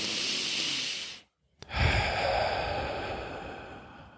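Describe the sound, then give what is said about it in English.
A deep breath is taken during a guided mindful-eating relaxation exercise. A long, airy inhale stops for a brief silent pause, then a long, audible exhale follows, with no talking. “Close your eyes. Take three deep breaths.”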